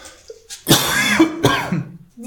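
Throat clearing: two rough, raspy bursts of clearing, the first longer and the second shorter, loud and alone.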